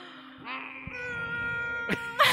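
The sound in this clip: A small kitten meowing: one drawn-out, tonal cry with a wavering pitch, followed by a couple of short, noisy bursts near the end.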